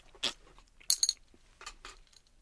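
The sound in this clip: Quiet eating, with crunchy bites and chewing mixed with a few light clinks of tableware. Brief sharp bursts are separated by near silence.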